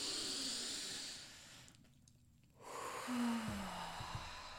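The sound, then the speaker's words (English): A group draws one deep breath in together, a soft, quiet airy hiss that stops abruptly, followed after a short pause by fainter breathy sound. “Okay, let's all just take one deep breath in.”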